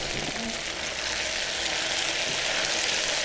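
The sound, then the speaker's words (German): Small pancakes fry in hot fat, making a continuous bright sizzle and fine crackle at an even level throughout with no pauses. “Wir portionieren die Pfannkuchen und braten die jetzt im Fett aus.”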